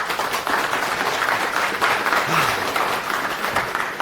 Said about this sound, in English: Give a big round of applause to